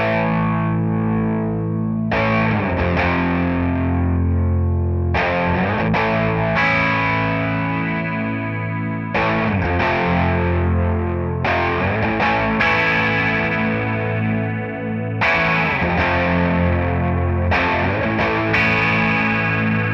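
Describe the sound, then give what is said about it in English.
A 1978 Ibanez Iceman electric guitar played through a 1976 Roland DC-50 digital chorus gives a lush, warm, swirling tone across a series of ringing chords, each sustained for a few seconds before the next strike. “It's a great sounding chorus, and it may be, I think you said earlier, it may be one of the nicest sounding choruses ever. I'd have to agree. It really is a lush, very analog sounding,”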